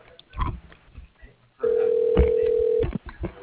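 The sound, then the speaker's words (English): A company phone system's ringing tone plays while a call is transferred. One steady, pure electronic tone holds for just over a second on a narrow, telephone-quality line, with brief murmurs of voice before and after it. “Thank you again for calling Imperial. Your call is being transferred.”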